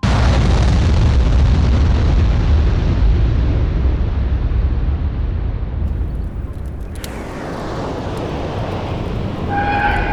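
A loud, sustained roaring rumble of an explosion during an aerobrake maneuver in a space video game fills the whole stretch. It gradually dulls, and faint electronic tones appear near the end.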